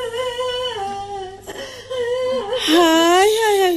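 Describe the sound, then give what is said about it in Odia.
A grandmother crying: loud, wavering wails and whimpering sobs with a strongly tonal voice, swelling louder toward the end. “ଇଏ ତ ଆଇମା କାନ୍ଦ ଶୁଭୁଛି”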